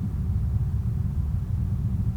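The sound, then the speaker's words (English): Car traffic from a nearby motorway makes a low, continuous rumble that stays steady and moderately loud throughout, with no voices over it. “You can hear a little bit more of the car noise.”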